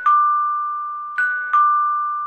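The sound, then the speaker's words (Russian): A doorbell rings insistently with three bright electronic chime strikes, the last two close together. Each strike rings a steady two-tone note that slowly fades, loud and with no talk. “и понял, что это звонят в дверь.”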